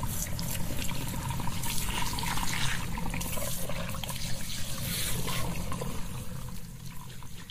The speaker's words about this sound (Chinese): 水开在这儿，把这个洗头盆泡满热水，让它浸泡着。